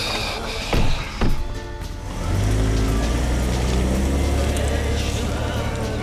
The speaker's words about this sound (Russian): Отец с напарником сели в машину и уехали.